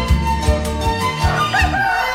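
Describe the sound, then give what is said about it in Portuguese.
A bantam rooster crows, a sustained tonal call with a wavering pitch that carries on for the whole moment. “Garnizé tá sinalizando e tá cantando. Deixa eu chamar de cantor.”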